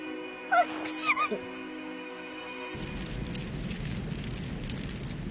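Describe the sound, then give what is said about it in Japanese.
A campfire crackles softly in a cold mountain setting. The fire comes in about halfway through, after a short stretch of other tonal sound, and continues as a faint, steady crackle and hiss to the end. “とりあえずこれで風邪をひくことはなさそうですわね。”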